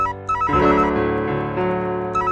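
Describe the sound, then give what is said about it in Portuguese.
A telephone rings with a melodic ringtone of several sustained, tonal notes that shift in pitch in steps. It plays steadily on its own, with no talk. “Para aí, para aí. O telefone tá tocando.”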